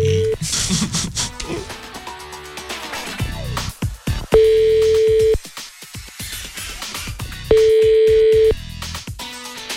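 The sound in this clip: Telephone ringback tone on a line as Kiss FM radio calls a contest winner: two steady, mid-pitched one-second tones separated by a pause, set among stretches of talk.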